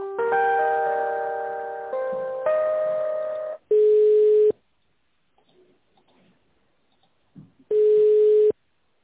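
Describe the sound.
Telephone line tones play while a call is transferred between departments. A few seconds of electronic multi-note tones are followed by two steady single-pitch beeps, each under a second, separated by a long near-silent gap.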